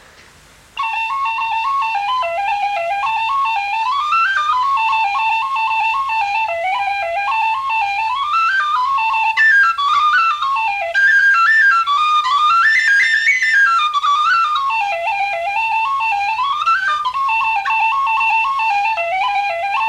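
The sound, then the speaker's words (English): Tin whistle playing a lively reel ornamented with short rolls on the note A, a bright, quick stream of notes that starts after a brief silence and runs steadily to the end. “A reel with the short A roll is Chashlani Chalik. It sounds like this.”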